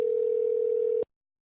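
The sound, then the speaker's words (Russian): A telephone ringing tone heard while calling a debt collection agency: a single steady, mid-pitched electronic tone that holds for about a second and then cuts off into silence. “позвонили в первое коллекторское бюро”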